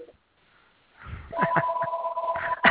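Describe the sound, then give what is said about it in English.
Telephone ringing in the background, a thin, steady electronic tone that holds for about a second beside faint, muffled sounds, quiet and partly masked, after a near-silent opening. “Sorry about that phone in the background.”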